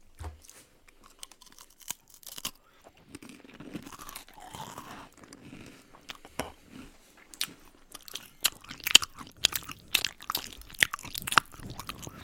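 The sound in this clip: Crunchy food is chewed close up in an ASMR-style session, with many irregular crisp crunches and bites. The crunches grow denser and louder toward the end, with no talking.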